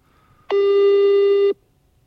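A single steady telephone call tone lasting about a second, from a private call with a withheld number that goes unanswered. It is a firm, even mid-pitched tone heard alone with no talk.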